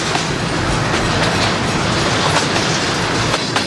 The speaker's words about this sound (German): fährt in seinem Bad gerade der Güterverkehr hier durch